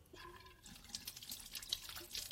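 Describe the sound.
Running water splashes quietly as someone washes their face. The soft, continuous trickle is broken by brief splashy bursts, and a short voice is heard at the start.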